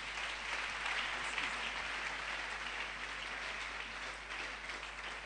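An audience applauds the Lord during a church worship service, producing a thick, continuous patter of many hands that sounds almost like heavy rain and stays steady and fairly loud from start to end.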